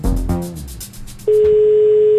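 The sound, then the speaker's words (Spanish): Telephone ringback tone as a call connects: a steady, loud, single-pitch electronic tone starts partway through and holds unbroken to the end. “ya está dando llamada.”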